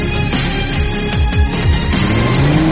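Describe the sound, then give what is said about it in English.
Engine roar from a 367-horsepower all-wheel-drive Audi RS3 Sportback being driven hard and drifted in Ivalo, Finland. The sound is loud and continuous, with engine tones sweeping up and down as the revs change. “The new Audi RS3 Sportback. It is putting its dynamic performance to the test in Ivalo, Finland.”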